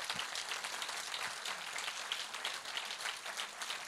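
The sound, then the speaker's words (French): An audience applauds in praise of Jesus, a soft but continuous patter of many clapping hands that stays even throughout. “Je pense qu'on peut acclamer Jésus pour ça.”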